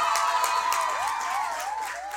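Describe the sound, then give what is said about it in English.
Applause and cheering from an audience at a contest where the crowd cheers for the best performer: steady, dense clapping with whooping voices rising and falling above it throughout. “for Lauren, round of applause”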